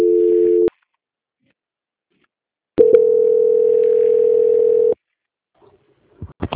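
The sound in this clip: A telephone call-transfer tone while on hold: a steady, mid-pitched electronic tone, first brief, then after silence a longer one lasting about two seconds, followed by faint clicks.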